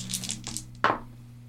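Three six-sided dice are rolled during tabletop role-playing character creation, with a few light clicks followed by one sharper clatter as they land, then fading quiet.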